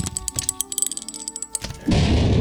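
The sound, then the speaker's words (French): A trapdoor in a dungeon being opened: a quick run of dry rattling clicks over a faint creaky tone, then a loud, rough rushing noise to finish. “Je vais ouvrir la trappe.”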